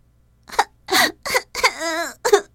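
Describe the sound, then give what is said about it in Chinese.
A voice imitates a wooden cup crying in a few short, breathy sobs and gasps, with one longer wavering wail in the middle, separated by brief pauses. “突然，木杯子睁开眼睛，惊醒了。没多久，又哭了起来。”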